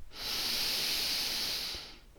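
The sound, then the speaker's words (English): One long, deep breath forms a steady airy hiss of about two seconds. It swells up quickly, holds evenly and then tapers off, with nothing else heard. “Now take a deep breath in”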